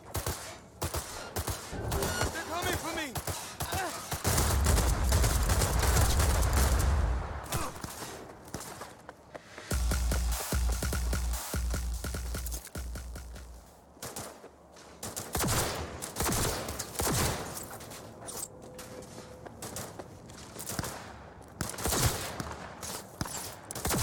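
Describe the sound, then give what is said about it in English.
Bursts of gunfire: a volley of many rapid shots with heavy, low booming blasts in two loud stretches, followed by scattered sharper cracks and clatter. “Open fire! Attack!”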